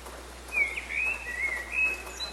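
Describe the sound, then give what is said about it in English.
Birds of a dawn chorus whistle thin, high sliding notes. The calls stay faint and intermittent over a constant low hum and soft background hiss. “This is the sound of a bird's dawn chorus.”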